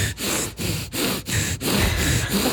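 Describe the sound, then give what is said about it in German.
A person imitates the laboured breathing of a pug, a run of raspy, snorting breaths in an even rhythm with short gaps between them. “Ich bin ein armes, kleines Tier und kriege keine Luft. Oh. Weil ich so eine so gezüchtet worden bin. Ah, du bist ja diese kleinen Hunde mit der kurzen Nase. Ich bin ein Mops.”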